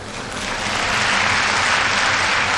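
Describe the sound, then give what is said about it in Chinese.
An audience applauds a gymnastics balance beam routine, with dense, steady clapping that swells slightly and carries on alone without a break. “后手翻横木落啊，同样是引得了全场的喝彩。”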